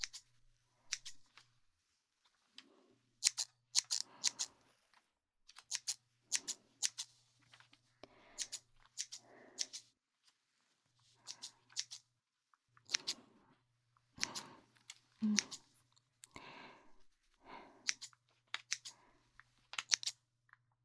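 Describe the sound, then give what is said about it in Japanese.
Scissors snipping through hair during a haircut, with many crisp, quiet snips arriving in irregular clusters over a faint steady low hum. “いっぱい切るから、終わったらさっぱりするぞ。”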